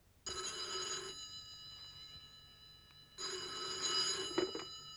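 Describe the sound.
A telephone bell rings in two bursts separated by a gap of about two seconds. The repeated, steady ring is fairly loud and plays alone, with no voices.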